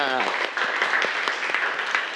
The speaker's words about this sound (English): So everybody clap your hand for student who are watching on the archery.